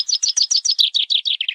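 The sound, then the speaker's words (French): Small birds chirp in a rapid, evenly spaced run of many bright, high tweets, loud and clear with no other sound behind them. “Moi aussi je l'aime cette nature, ces petits oiseaux.”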